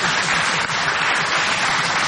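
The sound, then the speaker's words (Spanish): An audience stands and applauds itself with loud, dense, sustained clapping that stays at an even level from start to finish. “A ver, pónganse de pie, por favor. Ahí está. Vamos a aplaudirnos.”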